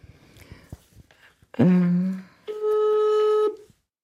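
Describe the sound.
Electronic phone tones sound while a call is placed from a keypad: two clear beeps, the second a steady tone held for about a second.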